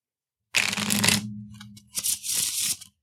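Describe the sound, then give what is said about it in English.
A playing card being flipped during a tabletop role-playing game makes two soft, papery swishes. The first is longer and brushier, with a faint low hum beneath it, and a shorter rustle follows after a brief pause. “So let's flip a card and see which it is.”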